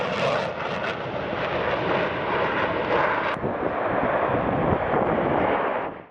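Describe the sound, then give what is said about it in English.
Aircraft flyover at an air show featuring aerobatic maneuvers: a loud, broad, continuous engine roar that holds steady for about six seconds before cutting off. No voices. “Incredible aerobatics maneuvers and advanced aircraft flyovers dazzled the audience.”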